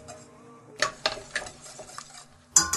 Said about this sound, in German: So, dann können wir den Rosenkohl da reintun.